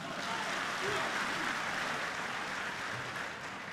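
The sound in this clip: Dense, sustained audience applause for a substitute musician at a Beijing opera and folk-art show, a steady wash of many hands clapping without a break from start to finish.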